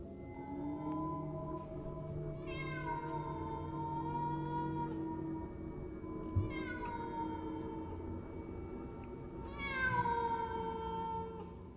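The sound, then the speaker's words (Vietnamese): A cat meowing in a dark garden at night, three drawn-out, wavering meows spaced a few seconds apart, fairly faint over a low steady background. “Tiếng mèo văng vẳng cất lên từ phía khu vườn tối tăm, chỗ giáp ranh hai nhà.”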